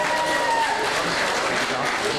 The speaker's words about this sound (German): ich hatte die Fans schon gebeten, sich vielleicht wieder zu platzieren, mit einem besonderen Applaus die Vertretung des FC Bayern München Amateure mit Hermann Gerland an der Mitte.